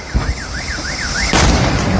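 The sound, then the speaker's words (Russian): An electric car exploding: a warbling car alarm wails steadily, then a sudden loud blast breaks in and carries on as a dense, roaring rush to the end. “Бах, бах, бах, взрывается электромобиль.”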